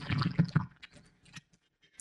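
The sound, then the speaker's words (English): Sipping a drink through a smoothie cup, giving gurgling, bubbly slurps much like a water bong, followed by scattered faint clicks and drips that trail off into quiet. “my drink. It's in one of those smoothie cups. But I was listening to it the other day, and I was taking a drink. I was like, that sounds just like a water bong.”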